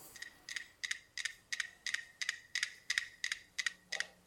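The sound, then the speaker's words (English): Metronomes click out of phase in a rapid, slightly uneven train of many crisp, bright ticks, steady in loudness and heard alone. “And similar to the listeners, before the story starts, this metronome is going to click, but they're going to click out of phase.”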